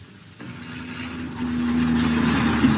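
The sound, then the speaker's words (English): A taxi cab pulls up, its engine a low, steady drone that grows gradually louder and holds at a constant pitch. “Hello, a taxi. Found me just in time.”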